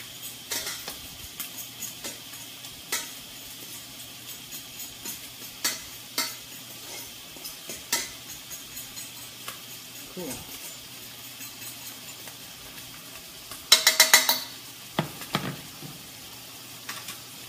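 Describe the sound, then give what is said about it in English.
A fork fluffs cooked rice and mixes in vegetables, making many soft scraping and tapping strokes at an irregular rhythm, with a brief burst of louder clinks near the end. “I'm going to take a fork and I'm going to fluff the rice so that I can mix it up with the veggies and the other stuff.”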